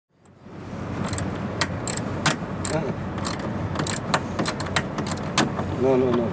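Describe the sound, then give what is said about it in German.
Metallic clicks and clinks as a customs officer unscrews the screws holding the stairs of a coach bus at the Bulgarian border. Many irregular taps sound over a steady background hum, with a brief squeak near the end. “Ein Zöllner öffnet die Schrauben, die die Treppe eines Reisebusses festhalten.”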